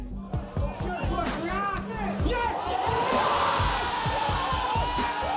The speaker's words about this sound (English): That's the sound of the very first goal being scored for AFC Wimbledon. It was scored by Glenn Trigger Mulcair.